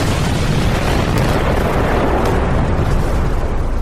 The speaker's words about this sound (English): It was Governor Chris Christie exploding.